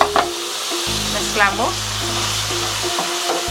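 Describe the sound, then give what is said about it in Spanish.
Tomato and chopped garlic sizzling in butter and oil, a loud, steady crackling fry that continues throughout with a low hum underneath. “y las vamos a llevar a cocinar. Mantequilla, aceite, vamos a poner tomate y ajo picado, suficiente.”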